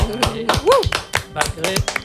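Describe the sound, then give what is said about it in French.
Sparse clapping from a small audience: a steady run of sharp, separate claps with a short vocal sound near the middle. “merci, on t'applaudit encore.”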